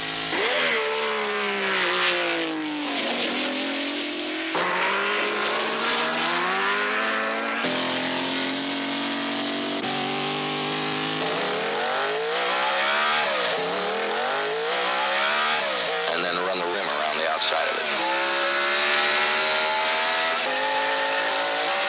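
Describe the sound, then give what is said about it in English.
A sand dune buggy engine of about 230 horsepower, in a vehicle weighing roughly 1,000 pounds, revs loudly and without pause, its pitch sweeping up and down again and again throughout. “I think we're running about 230 horses, and then the vehicle weighs about 1,000 pounds. And what I've got to do is to take the sand dune buggy and drop it straight down.”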